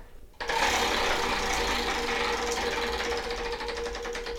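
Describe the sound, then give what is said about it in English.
Boardwalk-style prize wheel being spun: an abrupt start into a fast, continuous rattling clatter that carries on steadily for about four seconds. “So, go ahead and spin the wheel, Susan. We have a, you know, boardwalk style... We have a boardwalk style spinny wheel.”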